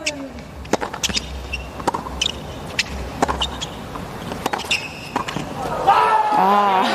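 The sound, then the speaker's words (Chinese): During a professional tennis match in the second set, a serve and rally unfold as a run of many sharp ball strikes and bounces. Commentators talk throughout, and voices rise near the end. “这是在第二盘比赛当中的第四个盘点。好发球，”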